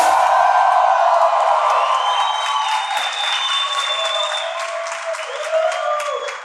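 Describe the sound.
A church audience claps together in a dense, steady patter while sustained voices ring out above it. The sound is loud at first and eases slightly toward the end.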